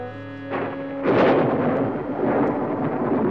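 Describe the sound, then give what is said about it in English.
Thunder from a storm blowing in at night, a broad, deep rumble that swells sharply after about a second and then rolls on loudly without a break. “Storm blowing in tonight.”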